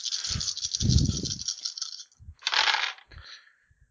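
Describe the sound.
Seven dice rattle and tumble across a table during a tabletop game: a long, clattering roll, then a shorter second burst and a few faint clicks as they settle.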